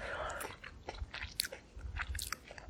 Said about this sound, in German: Ich esse jetzt mal eine. Diese Blaubeeren schmecken so anders als die, die man im Supermarkt kaufen kann.